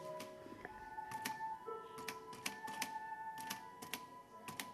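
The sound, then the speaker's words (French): Faint, irregular clicks and light taps from Paul Bowles's typewriter being touched and handled, with a few sharper mechanical ticks standing out against a quiet background. “La machine à écrire de Paul Bowles. On peut toucher ? Oui.”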